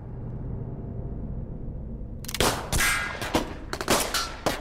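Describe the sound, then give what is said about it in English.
Gunfire at an indoor shooting range: a low rumbling background gives way to a rapid, uneven series of many sharp, loud cracking shots. “So, we go to this indoor shooting range.”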